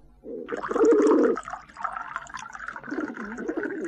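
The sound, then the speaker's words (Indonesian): Water poured into a clay jug makes a steady gurgling, splashing pour that runs through the whole clip. It is loudest near the start, then settles into an even, slightly bubbling flow, with no voices. “Sekarang kita coba tuangkan ke dalam kendi.”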